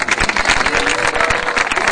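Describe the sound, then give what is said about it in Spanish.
Audience applause at a World March for peace event welcoming the base team, a dense, continuous clatter of many hands with a slightly uneven, rippling loudness. “Un fuerte aplauso para”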